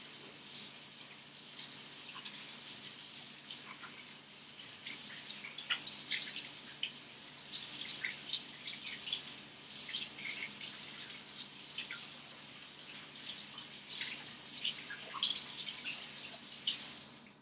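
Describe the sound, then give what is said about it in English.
Running tap water splashes as hands are washed at a kitchen sink after handling cooked crab: a faint, steady hiss with irregular brighter spatters throughout, and no talking. “Wash your hands. You don't want to get crab juice everywhere,”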